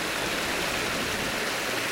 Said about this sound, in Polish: Już tutaj się napełnia. Już teraz podnosimy się. Woda jest w komorze śluzy wyrównywana z górnym stanowiskiem